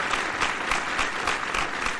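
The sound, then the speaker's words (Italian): Live audience applause: dense, steady clapping from many hands, evenly sustained for a couple of seconds. “Un applauso perché ci sta. Un applauso a Billy.”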